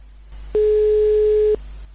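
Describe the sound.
Ringback tone of an outgoing telephone call: one loud, steady, single-pitched tone lasting about a second, with faint line hiss before and after it.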